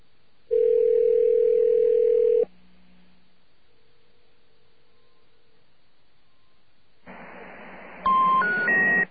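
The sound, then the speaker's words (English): A telephone dial tone hums steadily for about two seconds, followed by near-silence with a faint brief tone, then line hiss as the call connects and three short ascending beeps. “Let's try the next one down. Notice how quickly these calls are going through, too.”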